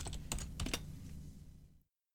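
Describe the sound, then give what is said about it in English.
Quick keystrokes on a computer keyboard as Hak5 is typed into a search engine, a short, faint burst of clicks that trails off into silence. “in fact, I can actually just test that right now if I just type in Hak5,”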